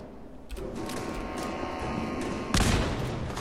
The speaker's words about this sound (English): Got him in the head! Yes! Dead. I shot him in the collarbone on that one.